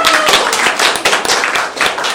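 Audience applause after a performance: dense, loud clapping from many hands that runs steadily through the whole stretch, with no break or fade.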